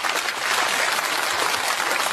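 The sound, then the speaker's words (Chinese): Audience applause at a comic crosstalk performance: thick, continuous clapping at an even level, with no voice over it. “下面咱们鼓鼓掌表示一下，喜欢的鼓鼓掌。”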